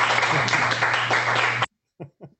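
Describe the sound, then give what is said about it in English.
Live applause from a CASA audience, a burst of lively clapping lasting about a second and a half that stops abruptly, followed by a voice speaking briefly. “By the way, that's real life CASA applause.”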